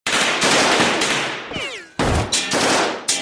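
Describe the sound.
Automatic gunfire rips out as armed gang members shoot at surrounding police, loud dense rattling bursts that break off briefly in the middle before more sharp, heavy volleys resume.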